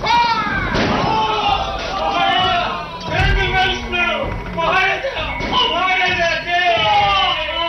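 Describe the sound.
Cannon fire in a battle scene: a few heavy, deep booming thuds break through continuous loud shouting voices.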